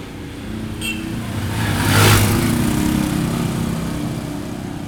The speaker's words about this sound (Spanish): También se ve en el barrio Los Pujitos, el tránsito está demasiado poblado de carros, buses.